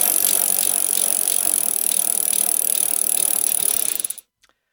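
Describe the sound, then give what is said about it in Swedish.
A raffle drum (tombola) spun for a prize draw. A rapid, continuous ratcheting clatter holds steady for about four seconds, then stops abruptly, followed by a couple of faint clicks. “Ja, vi drar igång tombolan får vi se vem som har vunnit.”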